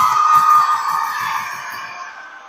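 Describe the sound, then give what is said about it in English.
Kids yelling right beside the stands at a senior night baseball game after a disputed call, a loud sustained chorus of young voices that gradually fades over a couple of seconds. “We have kids yelling over right next to us. Yeah. And they're saying bad calls.”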